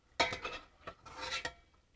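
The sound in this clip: Fried food dropped from a slotted spoon into a bowl gives a few soft clinks and clattering knocks, with the sharpest at the start, separated by brief quiet gaps.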